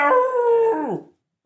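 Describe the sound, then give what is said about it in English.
A dog howls like a coyote in one long, loud, sustained tonal wail that bends down in pitch as it fades out, followed after a short gap by a faint brief sound. “Then he actually does howl like a coyote.”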